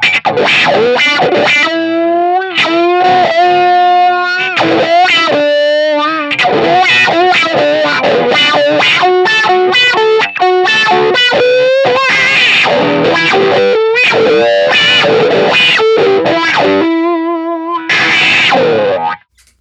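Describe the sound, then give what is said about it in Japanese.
A loud electric guitar solo played through heavy distortion and a compact wah pedal, with single-note lines whose tone sweeps constantly. The sustained, vocal-like notes run without a break and cut off abruptly at the end. “まあ、こんな感じで、歪ませた音に、ワウをかけた、状態で、ソロみたいなものを、弾いてみました。”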